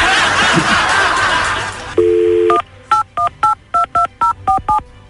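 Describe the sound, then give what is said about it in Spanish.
Telephone dialing tones: a steady tone sounds first, then a quick, evenly spaced series of about eight short beeps of varying pitch as a number is dialed. “Quédate en la línea telefónica, no te vayas y ahorita le vamos a mandar a, le vamos a marcar a Vicente.”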